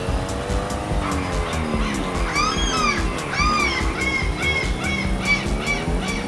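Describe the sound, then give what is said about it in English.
A race car in a driving video game set in France, its engine droning and sweeping up and down in pitch as it shifts. Squealing tire chirps repeat throughout over a steady, moderately loud roar. “We are racing in France. Now. So, okay. Racing in France left.”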